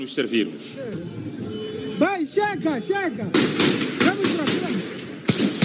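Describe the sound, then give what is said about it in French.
Gunshots ring out in a city centre as police disperse gatherings: several sharp, loud cracks burst out over excited shouting voices, coming thicker in the second half. “Dans le centre-ville, très vite, des tirs retentissent.”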